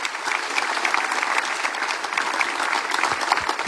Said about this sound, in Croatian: jedan veli pljesak za Andreja Bašu